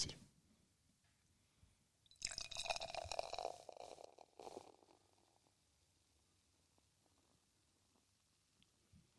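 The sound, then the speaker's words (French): Beer pours into a glass and builds a foamy head. The pour is faint: a gurgling, bubbly rush lasts about two seconds, then fades to quiet fizzing and near silence. “j'ai versé pour vous et je me suis fait un, très beau col de mousse aussi.”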